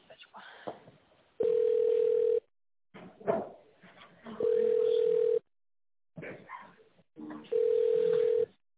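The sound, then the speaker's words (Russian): Three long, steady telephone tones sound at even intervals during a business call, each holding one flat pitch, with indistinct voices and line noise filling the gaps between them. “Давайте еще раз попробуем позвонить.”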